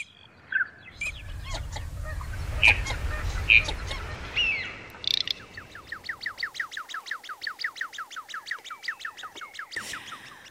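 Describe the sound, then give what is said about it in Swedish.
A courting male common shelduck calls in spring, first giving a few scattered high whistles over a low rumble, then a long, rapid, evenly spaced run of repeated whistling notes. The calls are fairly faint. “Så låter en vårpilsk gravandshane.”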